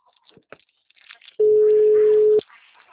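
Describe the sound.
A steady telephone ringback tone sounds once during an outgoing call, holding an even pitch for about a second. Faint, muffled voices come before and after it.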